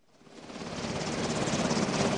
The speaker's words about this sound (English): It's a gorgeous autumn day, and a Black Hawk helicopter sweeps along the U.S.-Canada border.